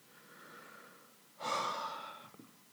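A single long exhale, a breathy hiss that starts abruptly and trails off over about a second, follows a softer, quieter breath.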